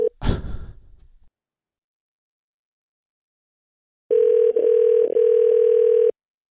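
Telephone dial tone heard while a call is being placed. A brief breathy sigh comes first, then silence, then a loud steady tone lasting about two seconds with a couple of short dips before it cuts off.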